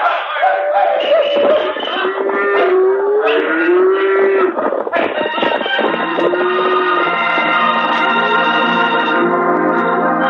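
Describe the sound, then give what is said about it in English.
A cattle herd lows as it starts moving, with long, overlapping moos that rise and fall over a steady, dense background of animal noise. “All right, you buckaroos. Start that herd moving. Ride them along.”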